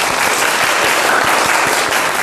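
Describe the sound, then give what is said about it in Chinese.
A class of students applauding a classmate after a poetry recitation, a loud, dense and even spread of many hands clapping that continues unbroken throughout. “整体还是不错的啊，大家给他鼓掌啊。”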